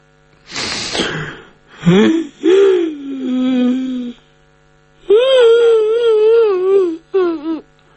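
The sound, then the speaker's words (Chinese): A voice acts out a character crying and wailing in a spoken story: choked gasping sobs, then a long, quavering wail, and after a pause a loud, wavering, drawn-out cry ending in short sobs. “这新燕呢绷了半天劲，突然间他哭出来”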